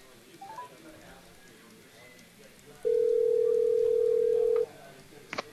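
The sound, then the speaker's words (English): An outgoing phone call rings out, sounding one steady ring tone that holds at a single low-mid pitch for about two seconds. Faint background noise sits under the tone, and a short click follows it. “Should we call him?”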